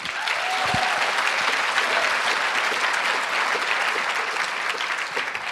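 An audience applauds to welcome a surgeon and writer to the stage. The clapping is dense and steady, a continuous wash of many hands that holds at an even level from start to finish.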